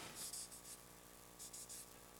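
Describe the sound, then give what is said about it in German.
Pen scratching on paper as a word is written down, faint scratchy strokes in two short clusters over a steady low hum. “Was müssen wir rein? Na, schreiben wir noch Arbeit dazu,”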